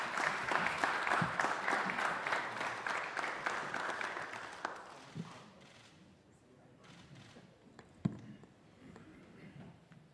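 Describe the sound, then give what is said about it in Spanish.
Applause from an assembled church audience welcoming the Pope. The clapping is soft but dense for about five seconds, then thins out and fades, and a single sharp thump comes near the end. “Santo Padre, gracias por su presencia, con cariño lo recibimos. Aplausos.”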